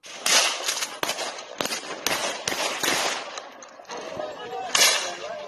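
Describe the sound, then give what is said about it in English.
Gunfire from armed citizens shooting at rioters: many sharp, loud cracks land at irregular intervals, some in quick pairs, with a few more scattered shots after a brief lull. “So these are rioters literally being fired upon by armed citizens.”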